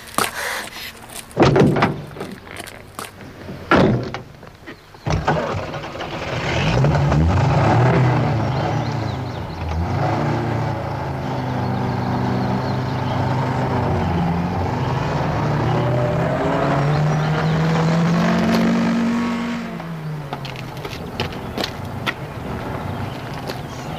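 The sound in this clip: A getaway car's door slams and the car drives off, in a radio-drama crime chase: a few sharp knocks open the scene, then a loud, sustained engine roar with shifting pitch runs for about fifteen seconds before fading down.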